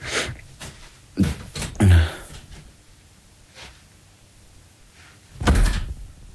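A door being closed at a doctor's practice: a few dull thuds, with a heavy low thump early on and another toward the end, amid quiet background noise.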